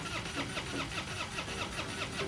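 A truck engine cranks without starting, though it had been running fine a few hours earlier. The starter churns in a steady, rhythmic series of pulses at even loudness throughout, and the engine never catches.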